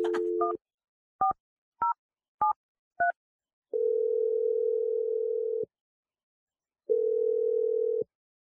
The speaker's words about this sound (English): I'm dialing number right now.